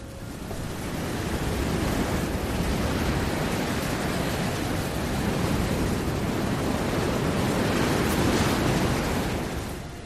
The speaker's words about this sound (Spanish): Ahora seguimos con la ventana de par en par, pero el aire no suena, solo el viento.